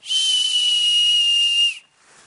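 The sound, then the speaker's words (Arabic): A person whistles through pursed lips: one loud, steady, high-pitched tone held for almost two seconds, then cut off abruptly, leaving a faint airy hiss. “مش انا لما حد بيصفر بيعمل كده،”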